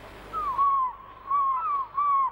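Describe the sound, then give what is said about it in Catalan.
Two seagulls call in a series of several clear, whistling cries, each sliding downward in pitch, coming in short bursts with brief gaps between them against a quiet background. “Dues gavines. Jo parlava de les gavines que passen.”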